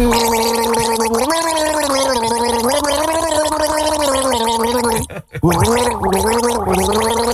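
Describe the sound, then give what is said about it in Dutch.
Gargling from a person gargling a tune as a guessing-game challenge: a sustained, wavering, pitched gurgle that runs loud and continuous for several seconds, broken once by a brief gap near the end before resuming. “Dat is dan wel knap gegorgeld, hoor.”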